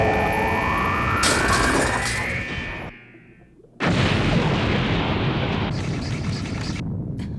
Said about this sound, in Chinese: 已经探测出爆炸的声音。